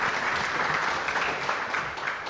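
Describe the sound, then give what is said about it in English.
Audience applause at a morning church gathering welcoming a guest: continuous, even clapping at moderate volume, holding steady throughout with no distinct voices on top. “Why don't we welcome Anne by way of round of applause this morning.”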